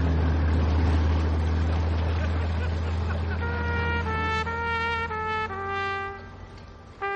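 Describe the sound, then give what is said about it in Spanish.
A departing yacht's engine gives a steady, deep droning rumble throughout, and a series of sustained higher tones joins in during the second half. “Se va en el yate.”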